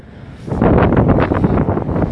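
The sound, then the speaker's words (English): Strong, cold wind blowing into a microphone outdoors: a loud, low buffeting roar that starts suddenly about half a second in and rumbles unsteadily until the end, with no voices. “it's really windy. It's really windy and cold.”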